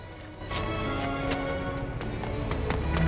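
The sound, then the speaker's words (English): Footsteps run along a road, a quick series of light, evenly paced strikes over a steady background hum. “As Buzz and Woody run down the road chasing the lorry”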